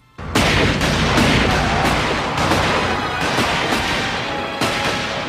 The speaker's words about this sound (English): Shooting out the tires on a runaway RV is a lot harder than it looked.